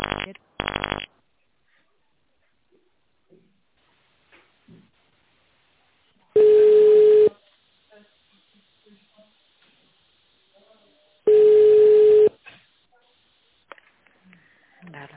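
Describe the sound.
Telephone tones on a call to a company's line while an extension is dialed: two short tone bursts at the start, then two longer steady beeps separated by a quiet line.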